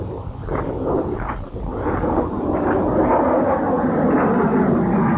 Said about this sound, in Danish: Nu kommer der flyver ovenover.